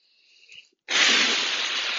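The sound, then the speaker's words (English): Agua Florida water blown in a spray from the mouth onto an altar: a soft breath first, then a sudden loud, sustained hissing burst that stays strong to the end. “I blow these energy of the blessings from the Agua Florida onto the altar.”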